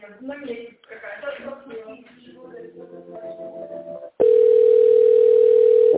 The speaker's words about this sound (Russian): Все, перевожу вас, нет, включайтесь. Если звонок не пройдет, с вами свяжется в ближайшее время. Ожидайте, перевожу вас.